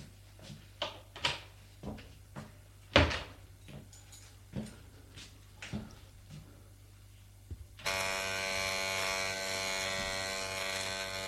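Electric shaver buzzing as a man shaves in a shower room, after a few scattered knocks and clatters. Then a steady, harmonic buzzing hum starts abruptly and runs unbroken to the end.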